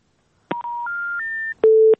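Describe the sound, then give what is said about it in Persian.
Telephone tones sound after a call is cut off: three clean electronic tones step upward in pitch one after another, then a single lower steady tone follows, each starting with a faint click. “متاسفم که تماس اینا قطع شد”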